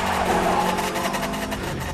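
A speeding car engine, with the driver shifting gears, holds a loud, continuous, dense mechanical drone with no clear break or change in pitch.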